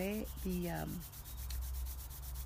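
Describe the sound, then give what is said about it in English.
Hands rub together during a guided meditation, making a soft, steady swishing friction with a faintly rhythmic stroke pattern that follows a brief voice at the start. “So rub your hands together.”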